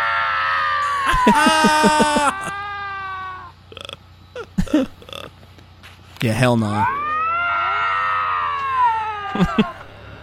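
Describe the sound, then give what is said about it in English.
Young lynx yowl and scream during mating season, one reluctant to fight, producing loud, drawn-out, wavering cries in several long bouts. Brief human speech falls between them. “That is the sound of a lynx that does not want to fight.”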